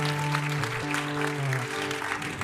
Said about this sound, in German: Come on, let's give the Lord another ja, round of praise. Ja, wir geben einen normalen Applaus.